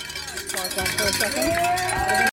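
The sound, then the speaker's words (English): Cowbells clang continuously at the finish of a running race, a busy, bright metallic ringing with spectators' voices calling out alongside. “Okay, so hear the cowbells.”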